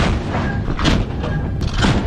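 Gunfire from a gun aboard a naval warship during target firing: a loud, dense roar with several dull booming blasts in quick succession.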